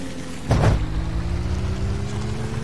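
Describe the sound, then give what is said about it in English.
Rally car engine with automatic transmission starting off on gravel: a brief louder burst early on, then a steady low droning hum that slowly rises in pitch. “Start your engines. 3, 2, 1, go!”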